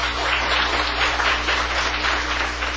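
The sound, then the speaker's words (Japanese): A church audience applauds together in a steady, rushing wash of clapping that stays even throughout. A constant low hum runs beneath the applause. “それではもう一度拍手を持って”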